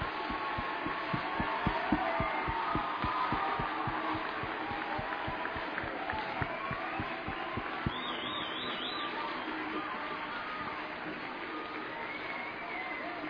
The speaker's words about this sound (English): Let's give the Lord a good hand clap of praise in this building. Oh, you can do better than that.